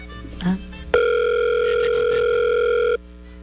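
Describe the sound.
A telephone dial tone follows a hang-up, starting abruptly after a short click and holding one steady pitch for about two seconds before stopping.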